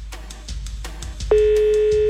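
A telephone ringback tone on an outgoing call to a number in Nova Iguaçu, Brazil: a few soft clicks over a low hum, then a single steady, mid-pitched tone starts abruptly and holds loudly to the end.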